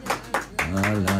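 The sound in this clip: A few sharp claps in a Greek television studio, spaced apart, followed at once by a voice talking.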